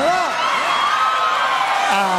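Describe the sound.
An audience cheering and whooping loudly, with a continuous wash of crowd noise and rising and falling shouts throughout.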